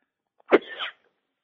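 A single sneeze, one short explosive burst that trails into a breathy rush and lasts under half a second, heard alone against silence.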